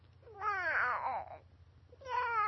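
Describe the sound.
A voice imitates a sad cat's meow in two drawn-out, wavering wails: a long, loud one, then a second that starts after a short pause and runs to the end, over a steady low hum.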